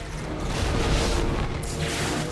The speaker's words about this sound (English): Don't you dare blow up that ship. Don't you dare. That's one of the new class of Asgard ships. Yeah, the O'Neill class. Oh, there goes another one.